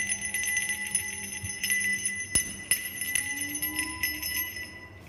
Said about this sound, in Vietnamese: Bấy giờ cái chuông đón hồn mới từ từ rung leng keng.